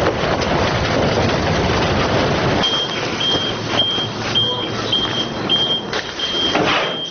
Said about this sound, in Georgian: კონტეინერიდან ნაგავი მოგვიანებით მანქანას გააქვს.